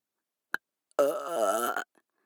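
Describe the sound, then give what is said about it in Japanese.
A single long, loud, rumbling burp lasting under a second, preceded by a brief sharp click and followed by silence. “なんでよりによってゲップなんだよ。”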